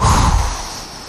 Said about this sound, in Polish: robimy głośny wydech ustami, aż poczujemy brak powietrza w płucach.